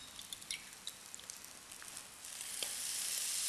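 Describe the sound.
Eggs sizzle in a pan seasoned with light soy sauce, a steady crackling hiss with scattered sharp pops early on that grows louder and denser in the second half.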